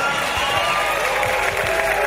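Audience applause and cheering after a song at a live concert, a dense, steady clatter of clapping that stays loud and even throughout.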